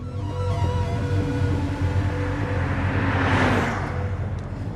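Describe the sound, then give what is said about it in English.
A powerful BMW races through quiet back streets, giving a loud, continuous engine roar. The low rumble stays steady, then swells into a rushing surge toward the end. “Kyle races through quiet back streets in Linda's powerful BMW.”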